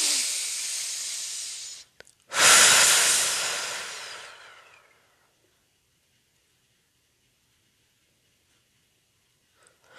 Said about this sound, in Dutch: Adem nog maar rustig in en adem rustig uit. En als je het prettig vindt, blaas je alles even weg.